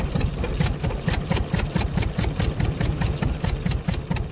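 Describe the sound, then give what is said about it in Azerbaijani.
Petrol-powered electricity generators run with a steady, rapid chugging drone, a low rumbling pulse that stays even and unbroken throughout, with no voices. “Bircə, işıq əldə eləmək üçün benzinlə işə salınan generatorların səsindən başqa.”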